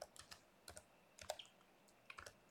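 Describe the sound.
Keys clatter as someone types code on a computer keyboard, with quick irregular clicks grouped into short bursts and brief pauses between them, fairly faint and with no talking.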